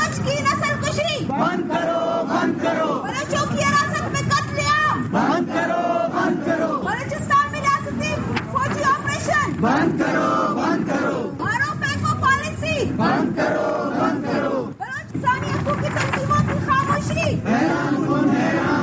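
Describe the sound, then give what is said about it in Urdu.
Protesters chanting slogans at a demonstration outside the Quetta Press Club. Many voices shout in unison, loud and unbroken for nearly nineteen seconds, with repeated rhythmic phrases. “مظاہرہ کے شرکا کے ہاتھوں میں کتبے اور banners تھے جن پر ان کے مطالبات سے متعلق نعرے درج تھے, جبکہ مظاہرہ کے شرکا نے اس موقع پر یہ نعرے بھی لگائے.”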